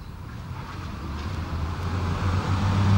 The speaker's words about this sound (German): Der Wagen kam diesmal von links, fuhr am Haus vorbei und hielt.